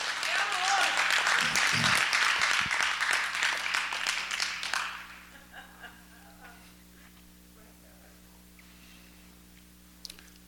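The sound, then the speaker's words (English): A church audience claps in praise, a dense, loud burst of applause for about five seconds that thins out and fades into near quiet with a few faint scattered sounds. “would you give God a hand clap of praise?”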